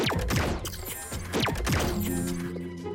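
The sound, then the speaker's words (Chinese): A vehicle mechanism switches into climbing mode with whirring, gear-like clanks and rapid downward-sweeping tones, settling into a steady mechanical hum at the end. “好的，启动登山模式。”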